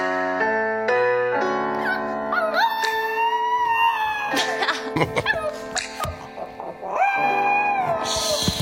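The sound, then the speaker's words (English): A dog howls along with a young woman's karaoke singing at home, its long, wavering howls sliding upward in pitch, with broken, choppy sounds between the sustained tones. “every time she takes a breath to start singing, her dog Leo steals the show”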